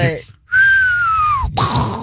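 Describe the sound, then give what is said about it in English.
A person attempts to whistle, producing one long, steady whistled tone that sags slightly in pitch at the end. Brief voices sound just before and after it. “He's trying to whistle,”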